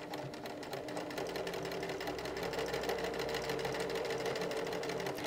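A sewing machine stitches fabric during a live sewing session, giving a steady, continuous mechanical whirr with a fast rhythmic chatter that runs unbroken for the whole clip at an even loudness.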